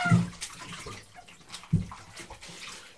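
Water sloshes and splashes in a bath as a child is washed. Soft, continuous trickling and swishing is broken by a couple of louder splashes, one at the start and another midway.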